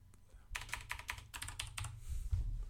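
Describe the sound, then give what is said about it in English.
Clicking of a computer mouse while selecting a heavy command cruiser in a computer game: a quick run of many sharp, bright clicks in an uneven rhythm over a low, steady hum. “Just double click on the heavy command cruiser.”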